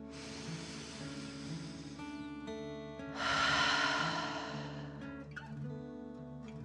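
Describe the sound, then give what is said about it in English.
Deep belly breathing during a guided dragon-breath exercise: a long, airy inhale and then a stronger, fuller exhale, both soft and breathy, over a faint sustained musical drone. “Deep breath filling up your belly in and out.”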